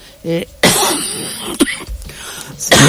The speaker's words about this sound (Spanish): La tos.